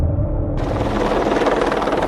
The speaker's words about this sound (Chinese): 直升机灭山火无疑效率最高